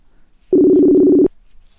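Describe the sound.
A mobile phone line tone while dialing out to call back: one steady, buzzy, low-pitched tone lasts under a second and then stops sharply. It stands alone in near silence, with no talk.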